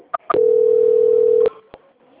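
Telephone tones during a call transfer: a couple of quick clicks, then one steady, mid-pitched tone lasting just over a second, followed by a single faint click.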